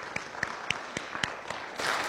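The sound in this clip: An audience applauds to welcome a guest preacher, starting as sparse, distinct hand claps and swelling into fuller, denser applause near the end.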